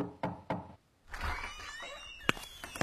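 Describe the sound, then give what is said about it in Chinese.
Two sharp knocks on a dormitory door in quick, even succession, then a pause, soft rustling and a single sharp click. “沈西一大早就敲门进入336寝”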